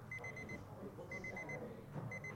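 A rapid-test timer beeps at an on-site testing station. Faint, quick, high-pitched beeps come in short bursts that repeat at intervals over a low background hum.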